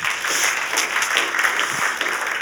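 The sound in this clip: Audience at Sunnybank applauding to welcome a guest named Tim, a continuous, even patter of many hands clapping at moderate volume, with no one speaking over it.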